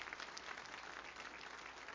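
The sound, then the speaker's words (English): A church audience claps as an offering to the Lord, a faint, dense patter of many hands that carries on evenly without breaks. “Everybody give the Lord a good clap offering one more time.”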